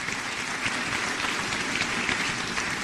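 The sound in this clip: A church audience applauds in welcome of a speaker, a dense, steady clatter of many hands clapping that holds an even loudness throughout with no voices standing out.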